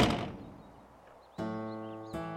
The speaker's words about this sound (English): Then he slammed the door in David's face.